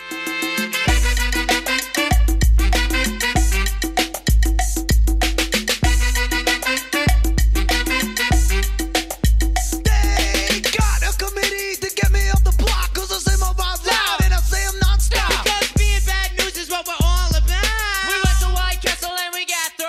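A song built on a sample of a funk track plays loudly, with a heavy pulsing bass beat repeating in a steady groove under layered tonal melody lines that run throughout.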